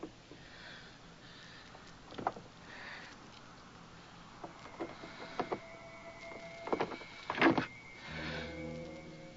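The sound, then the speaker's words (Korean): A key turns in a door lock and the door then opens, giving scattered metallic clicks and scrapes over a steady low hiss, followed by a brief muffled rumble at the end. “열쇠 하나가 용케 들어맞습니다.”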